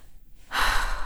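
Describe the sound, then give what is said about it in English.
A deep breath is drawn in, a steady, airy rush that starts after about half a second of near silence and holds evenly to the end. “I took a few deep breaths.”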